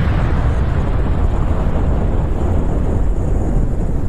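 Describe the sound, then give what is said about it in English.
A bomb explosion sound effect, heard as a loud, sustained low rumbling roar that holds steady throughout, with no separate sharp blasts. “Where's the bomb? I need one of those bombs like it's going to fall on Iran tonight. There it is.”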